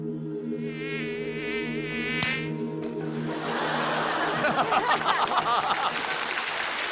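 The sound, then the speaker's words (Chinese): A mosquito's thin, high whine wavers over a lower steady hum for about two seconds, then a sharp click cuts in and gives way to a louder, noisy, busy commotion. “蚊子！ 出去打蚊子去！”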